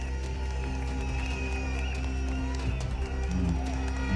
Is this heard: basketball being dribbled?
no